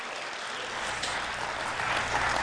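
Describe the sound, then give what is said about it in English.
An audience claps its hands in praise during a church service. The steady, fairly soft patter of many hands continues evenly throughout, with no voices heard. “Give God a hand clap of praise tonight.”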